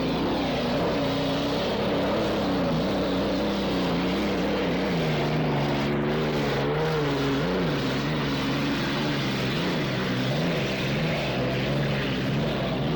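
A racing powerboat, Smirnoff, roars through the last lap of its heat. The engine drone is loud and sustained, and its pitch wavers up and down throughout.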